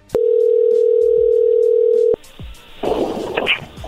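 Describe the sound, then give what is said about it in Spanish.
A telephone dial tone sounds while a call is being redialed: one steady, loud, unbroken tone holds for about two seconds, then cuts off abruptly, leaving quieter, faint sounds. “¡Colgó! A ver, márcale de nuevo, por favor.”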